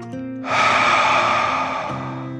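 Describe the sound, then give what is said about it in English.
One long, deep breath, a soft airy rush lasting over a second, heard over quiet sustained tones of calm background music. “taking a deep dragon breath in and out.”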